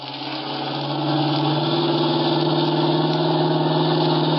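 A car engine runs hard as the driver speeds up during a chase, making a loud, sustained mid-pitched drone that swells slightly in the first second and then holds steady with no voices over it.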